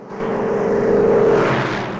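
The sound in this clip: A silver-grey coupe tears off down the road, its engine roar swelling quickly into a loud, sustained rush, then easing slightly at the end.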